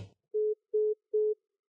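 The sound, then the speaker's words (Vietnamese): A telephone tone sounds after a call hangs up: three identical short beeps at a steady mid pitch, evenly spaced and clean, following a brief scrap of noise at the start. “Điện thoại cúp rất nhanh.”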